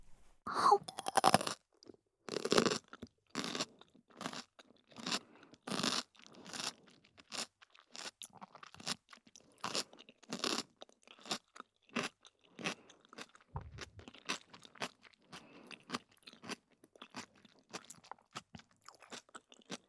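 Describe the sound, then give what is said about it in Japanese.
Crisp crunching and chewing of Japanese tsukemono pickles, with many sharp, rhythmic bites that are louder at first and then come quieter and quicker, with no talk. “漬物の種類で全然音変わりますね。”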